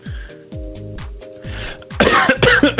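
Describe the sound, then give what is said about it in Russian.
A coughing fit: a rapid series of harsh, chesty coughs. The later bursts grow louder and rougher. “Что ж ты закашлялся-то так, а?”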